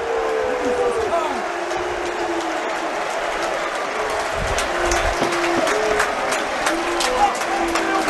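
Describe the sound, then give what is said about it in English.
A football crowd at full time at Millwall's ground, The Den, jeering the players and clapping. A dense, steady roar of shouting voices and applause continues throughout without a break. “A mixture of abuse for the players and claps.”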